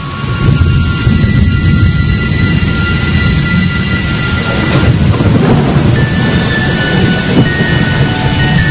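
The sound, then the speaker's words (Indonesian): Heavy, lasting rain pours down during a stay at a beachside guesthouse, a dense, steady roar with a deep rumbling undertone that holds at the same loud level throughout, without pauses. “Singkat cerita, hujan yang deras itu pun cukup awet.”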